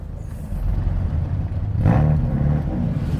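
A car engine starts and runs with a steady, low rumble before a track driving session. The engine swells louder partway through as it revs up.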